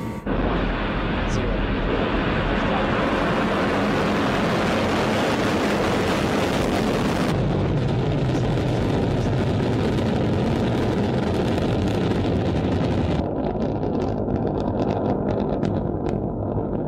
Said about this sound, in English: The Falcon 9 core stage burned for over 2 minutes and 40 seconds before MECA, or managing cutoff, and stage separation.